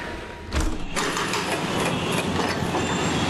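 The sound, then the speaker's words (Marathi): Heavy evening traffic and metro line construction noise come through an opened window: after a quieter half-second, a loud, dense roar of engines and rumbling starts abruptly and continues steadily to the end, with no talk. “आपण संध्याकाळी 5 वाजता पूर्ण traffic असताना, सोबतच metro लाईनचे काम सुरू असताना युटिलिटी विंडोजचं प्रात्यक्षिक बघूया. आणि आता मी ही विंडो उघडतो.”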